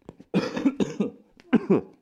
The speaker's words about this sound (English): it got me, that cough got me. Y'all know that cough.